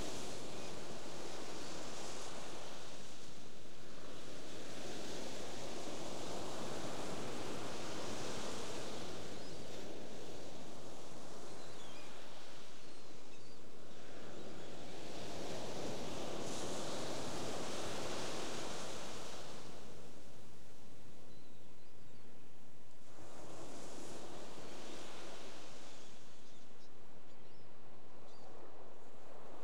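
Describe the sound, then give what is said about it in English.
Ocean waves wash in slow, broad swells of hissing surf. Each surge rises and ebbs over several seconds, and the steady roar continues alone with no voices. “sound of waves. Setting that intention. Let's see what happens. Be with the wave. Ride the wave.”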